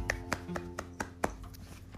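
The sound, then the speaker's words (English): Hands clapping in a quiet, even rhythm: several soft, sharp claps spaced about a quarter second apart, with no other sound around them. “I applaud you. I expected more claps there.”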